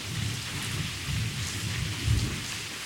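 Rumbling thunder rolls under steady rain: a low, continuous grumble that swells briefly near the end over the constant hiss of falling rain, with no voices.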